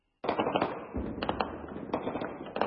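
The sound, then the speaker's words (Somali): Gunfire crackles across the city of Goma in the Democratic Republic of Congo, with many sharp, popping reports in rapid, irregular succession after a brief silence. “Dhawaaqa rasaasta ayaa laga maqlayaa guud ahaan magaalada Goma oo ka mid ah magaalooyinka ugu waaweyn dalka Jamhuuriyadda Dimuqraadiga Congo.”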